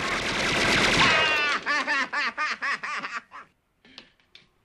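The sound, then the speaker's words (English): Machine-gun fire from a black-and-white gangster film on a TV: a dense, loud burst, then a rapid string of short staccato bursts with laughter-like vocal sounds mixed in, fading to a few scattered pops. “Shocked by the black and white images on TV, Kevin covers his eyes with his hands but peeks through his fingers as the man guns down his phone.”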